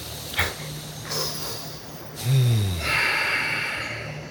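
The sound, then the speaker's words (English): People taking a deep breath together: a few audible breaths, including a sharp snort-like intake and a low sighing exhale, then a long, steady breathy hiss trailing off to the end. “And let's take a deep breath to that,”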